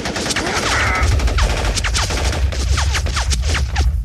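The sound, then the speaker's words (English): A volley of gunfire as a group of armed Advocates opens fire: many rapid, overlapping shots crack in a dense, loud barrage over a heavy low rumble throughout. “Someone has to stop you. Advocates, open fire!”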